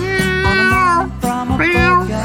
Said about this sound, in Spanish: Es un gato en celo ese